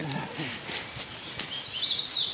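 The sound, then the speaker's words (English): A thrush and a cardinal sing in oak and hickory woods, thin high whistled phrases coming in partway through and rising over a soft, low background. “A thrush and cardinal sing in the oak and hickories.”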